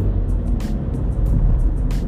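Steady road noise from a car being driven home: a continuous low engine and tyre rumble with a faint hiss above it, level throughout, with no voices.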